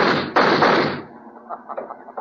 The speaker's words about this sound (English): I've got a gun. Then why don't you use it?